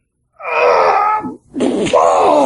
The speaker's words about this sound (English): I'm hearing groaning in the background, and I can't hardly hear you. That's the guy next to me. That's not me.